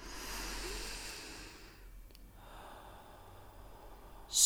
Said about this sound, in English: Try with me. Inhale.